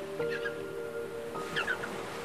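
Faint dolphin squeaks and chirps rise over a steady wash of sea surf, with short whistle-like bursts near the start and again late on.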